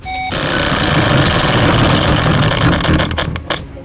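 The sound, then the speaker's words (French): Rapid ratcheting clicks of a game show prize wheel spun hard on its third and final turn. The clicks blur into a loud, steady buzz, then thin out into separate ticks as the wheel slows near the end. “Allez, ouais, troisième et dernier tour de roue, on y croit. On y croit, je la lance bien je fort.”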